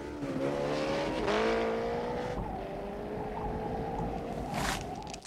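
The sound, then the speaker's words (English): A motorbike engine revs as the rider pulls a wheelie and rides off over a hill, a loud, steady mechanical drone with strong tonal harmonics that dips slightly in pitch and then holds. “The biker turns and rides off over the hill, pulling a wheelie as he goes.”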